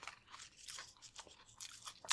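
Crisp crunching of Flamin' Hot pork rinds being chewed, a rapid, uneven series of many sharp, dry crackling bites, fairly loud and close, with no talk.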